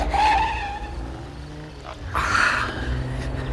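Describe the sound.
A car engine rumbles as the vehicle pulls out of a driveway through an opened garage door. The broad, rough drone eases off midway, then swells louder again toward the end.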